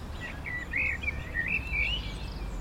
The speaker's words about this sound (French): C'est le merle, ça. Il y a des merles là-bas, oui.